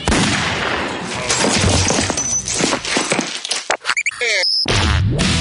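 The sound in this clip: 9mm gunshots ring out as many loud, sharp cracks in quick succession, then break into scattered bursts separated by short gaps near the end.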